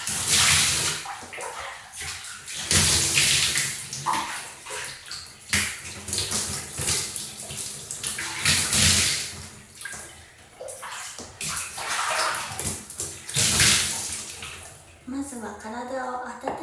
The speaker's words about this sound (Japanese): お風呂に入る前に洗面器で体を流します。